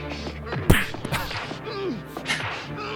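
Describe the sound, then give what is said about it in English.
A punch to the face in an action movie fight, landing on a fighter wearing protective gear. One sharp, loud smack stands out against a busy soundtrack of music, with smaller hits and clatter around it. “he's punching him in the face, but he's got protection now, so it doesn't hurt.”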